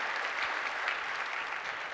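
An audience applauds to welcome a couple onto the stage at a campus gathering, with continuous dense clapping at an even level for about two seconds.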